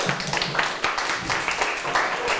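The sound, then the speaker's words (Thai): A class of students claps for a classmate, a dense, even patter of applause that holds steady for the whole short stretch. “เก่งมากปรบมือเพื่อนหน่อย”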